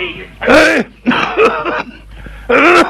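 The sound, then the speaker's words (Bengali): Harsh, voiced coughing from someone with a persistent cough that medicine has not eased: three rough bursts with short pauses between them. “দাঁড়া দাঁড়া দাঁড়া, কাশতে কাশতে জীবনটা বের হয়ে যাচ্ছে জানো।”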